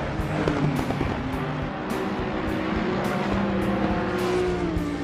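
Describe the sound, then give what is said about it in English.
Race car engines roar without pause in a crypto racing game, a dense high-pitched revving drone with a few swells as cars speed past, with no talk over it. “Outrace your competition. Winning is all that matters. Watch the other racers in your rearview mirror.”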